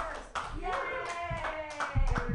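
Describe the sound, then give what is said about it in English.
Audience clapping to welcome a guest introduced on stage, a quick patter of hands mixed with voices calling out and cheering. “Put your hands together, everybody, for Brady Pearson.”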